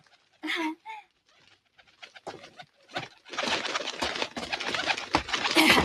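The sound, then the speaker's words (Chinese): White pigeons cooing as they are fed in the morning. A few short, soft calls come first, then a dense, continuous stretch of bird sound. “我朝朝咧都喂呢啲白鸽噶。”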